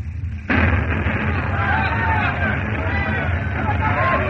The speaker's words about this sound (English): Whole place blew up.